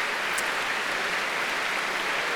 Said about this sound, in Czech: Potlesk ještě stále neukončil první část.